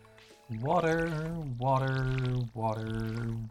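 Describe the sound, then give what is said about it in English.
Watering can pouring onto crops in a farming video game. The game's tonal watering effect plays three times in a row: a long pour, then two shorter ones, each bright and moderately loud. “Water. That's two rows done. All right. That's our plants watered for the day.”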